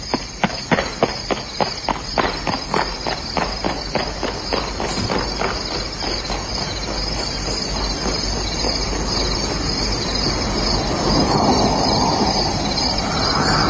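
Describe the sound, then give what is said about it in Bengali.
Crickets chirp through a silent night outside a bungalow, a steady high-pitched drone running the whole way. Quick, rhythmic footsteps thump loudly over it in the first half, then fade and leave a continuous insect hiss. “আর তারপর নিঃশব্দ রাত, ঝিঝি পোকার ডাক ছাড়া আর কিছুই শোনা যায় না।”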